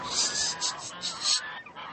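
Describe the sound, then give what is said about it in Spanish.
Geese honk in a run of several loud, nasal calls of varying pitch, close together, then fade toward the end. “¡Vamos, gansos! ¡Vamos!”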